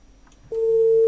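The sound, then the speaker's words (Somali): A telephone busy tone sounds after a caller's line drops: a single steady, clear electronic beep about half a second long, following a short quiet gap and cutting off abruptly. “dhegeystahaasina qadka ayaa ka go-ay”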